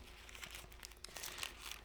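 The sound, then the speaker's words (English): Bible pages being turned while someone searches for 2 Peter make soft crinkling and rustling, many quick papery crackles, all quiet and alone. “let me get that page open, 2 Peter”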